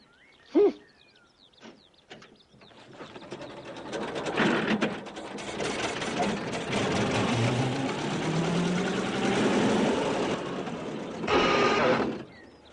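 A car engine is switched on and kept running with the throttle held open: a few sharp clicks first, then a clattering, ratcheting mechanical rattle that builds and runs on steadily, with a louder burst near the end.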